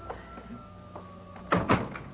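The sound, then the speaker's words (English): A door is opened for an elderly woman, with two quick, close knocks and rattles of the handle and frame near the end, following a stretch of faint shuffling. “Let me get the door.”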